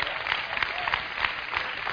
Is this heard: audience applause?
yes